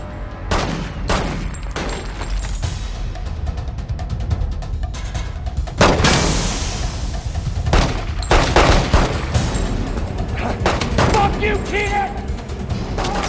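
Gunshots in a shootout between police officers and a gunman taking cover behind stacks of bricks. Many sharp, loud cracks and bursts come in irregular clusters over a constant rumbling din, with a few heavier blasts standing out.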